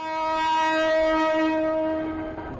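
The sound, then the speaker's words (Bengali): A train horn sounds as an express passenger train leaves Dhaka station, a sustained, steady chord of harmonic tones held for a couple of seconds before tapering slightly at the end. “রবিবার ভোর 6টায় রাজশাহী ধূমকেতু express Dhaka station ছেড়ে যাওয়ার মধ্য দিয়ে শুরু হয় বিশেষ ট্রেন যাত্রা।”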